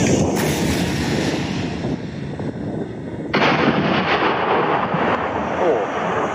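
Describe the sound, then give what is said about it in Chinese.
An artillery gun fires a full propellant charge and its shell explodes against a mountainside several hundred meters away. The result is a loud, sustained rumbling roar that surges sharply partway through. “直接是全号装药，所以发射的时候这个声音要比刚才打箭瞄的时候大了很多，而且击中山体之后这种爆炸声”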